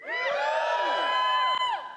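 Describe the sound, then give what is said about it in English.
A church audience lets out a short burst of cheering, with whoops and shouts from several voices that slide in pitch, rising together and fading out after about two seconds. “That was a good cheer.”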